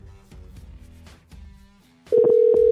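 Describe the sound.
A loud, steady telephone tone sounds while a call is being placed. It starts partway through after quieter low rumbles and holds continuously to the end.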